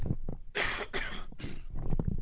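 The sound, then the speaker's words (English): Three harsh coughs in quick succession, loud and raspy, with quieter breathy throat sounds before and after them. “I'm just going to take the headset off and have a quick cough.”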